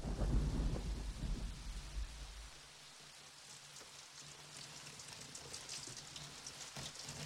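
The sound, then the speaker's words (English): Rain falls on a stained-glass casket in a faint, steady patter of drops. A low rumble of thunder rolls under it during the first couple of seconds. “Rain drops onto the casket.”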